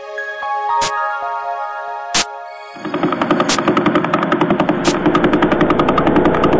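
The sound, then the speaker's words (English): Pulsar radio signals converted to sound: a few isolated sharp clicks over a steady tonal hum, then a fast, regular train of buzzing pulses takes over and continues to the end. “Those are the voices of pulsars, the corpses of exploded stars.”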